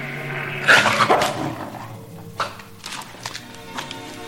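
A dog barks in an audio drama, with a cluster of loud barks early on and a few fainter, scattered barks afterward, over a low background rumble.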